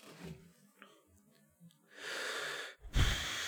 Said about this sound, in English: I'm just breathing.